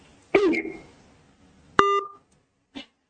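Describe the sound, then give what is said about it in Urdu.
A phone call cuts off: a short voice-like burst, then a bright, buzzy electronic beep held briefly, and a final short blip before silence. “وہی کال بھی کٹ گئے.”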